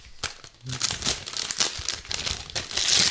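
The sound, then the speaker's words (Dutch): Wrapping paper crinkles and crackles as gifts are unwrapped: loud, dense bursts of papery rustling that come in uneven waves and build toward the end, with no talk. “We gaan je cadeaus uitpakken.”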